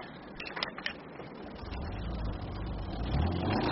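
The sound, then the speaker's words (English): Engine rumble of a Waffen SS Kubelwagen military car driving away from the Wald Hotel in Altgarten with two men inside. A steady low drone thickens and grows louder over the second half. “A Kubelwagen of the Waffen SS leaves the Wald Hotel in Altgarten with two men inside.”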